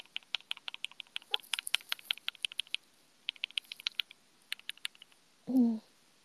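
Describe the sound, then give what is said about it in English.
Keys clatter on a computer keyboard in many light, irregular taps, faint and crisp. The typing comes in short bursts with brief pauses between them. “I'm done with the laundry, and now I'm just playing with my keyboard.”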